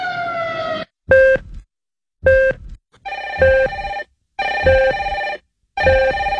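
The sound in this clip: Telephone ringing in a run of repeated electronic bursts separated by short silent gaps, loud and steady in pitch, with no voices.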